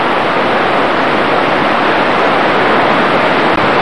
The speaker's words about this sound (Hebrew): יש שם קשת. מים שוצפים וקוצפים.